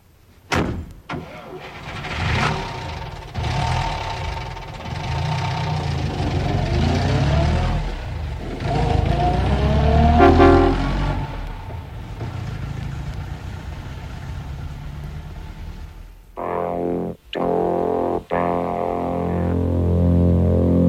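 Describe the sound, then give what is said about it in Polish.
A car engine cranks and starts, then runs and revs as the car drives off at the start of a trip. The engine holds a steady rumble with shifting pitch, followed by a few sharp clicks and knocks near the end. “pakujemy się, odpalamy samochód i jedziemy.”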